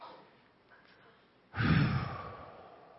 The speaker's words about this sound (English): deep breath.